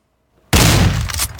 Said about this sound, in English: There it is. Hey, enough with the shotgun.